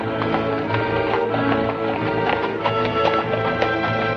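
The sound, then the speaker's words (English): Horses trot along a street, giving a steady run of many overlapping hoof clip-clops over a constant background. “They trot past John and Sim without acknowledgement, turning onto a side street with Dolby in tow.”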